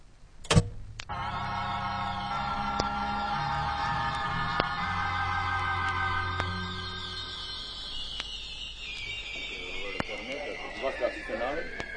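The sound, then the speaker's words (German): A tape recorder switched on in a radio drama: one sharp click, then a sustained buzzing electronic whine of layered tones that sags lower toward the end. “Fragen Sie nicht, schalten Sie das Band ein. Zu Befehl, Sir.”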